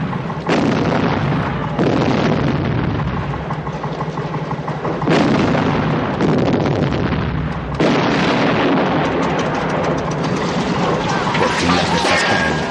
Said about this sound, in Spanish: Los campesinos tiran granadas contra el cercado de la alberca para derribarlo.